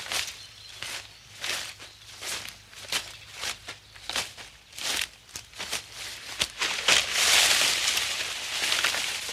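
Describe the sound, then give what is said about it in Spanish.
Footsteps of an old man walking along a path with a cane, a long series of soft, crunchy steps in an uneven rhythm, giving way to a continuous rustle near the end. “Nelly señala al abuelo interpretado por Fernando Fernán Gómez, que avanza por el camino apoyado en su bastón.”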